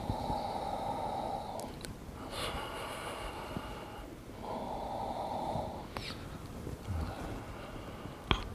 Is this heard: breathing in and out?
yes